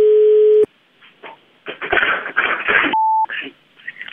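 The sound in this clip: Telephone tones sound as a call is placed to a mattress shop. A steady low tone opens, then gives way to rough, voice-like line noise, and a brief higher beep cuts in before the noise resumes.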